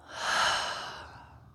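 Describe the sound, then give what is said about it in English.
A deep breath during a guided meditation, released as one airy, open-mouthed exhale that swells and then slowly fades, heard alone. “we're going to take a deep breath, inhale, open your mouth, and exhale.”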